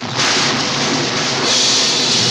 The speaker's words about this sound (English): In the darkening sky above, stabs of lightning give way to fireballs that hurtle downwards and explode upon the Hydra's body.